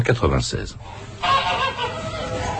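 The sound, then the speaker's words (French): A goose being force-fed with maize on a farm in the Gers gives a few rapid, harsh honks, followed by a continuous rough, strained cackling that stays loud to the end. “Écoutez le gavage d'une oie dans le Gers, enregistré par Pascal Fossat pour l'émission Le Pays d'ici”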